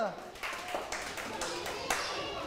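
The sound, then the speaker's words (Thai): Hands clapping from a class of students in a classroom, a few sharp, irregular claps that stand out above a steady background of voices. “เก่งมากยอดเยี่ยมปรบมือ”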